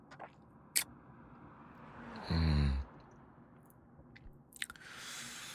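Chewing and mouth noises as someone tastes a sweet treat scooped up on a finger, with one loud, short burst of smacking mid-clip amid quieter soft movements.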